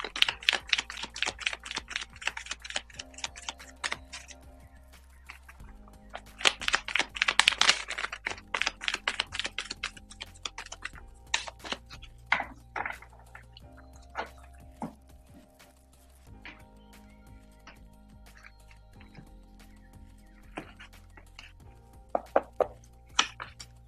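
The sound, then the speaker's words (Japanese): Tarot cards being shuffled: several bursts of rapid, crisp riffling clicks separated by quieter pauses, over a soft, steady tonal background. “カードをシャッフルします。”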